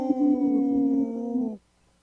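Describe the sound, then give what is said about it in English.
Three people imitate a wolf howl together in harmony, a steady voiced howl held for about one and a half seconds before cutting off abruptly. “Wow, that was a good howl. Kind of three-way harmony.”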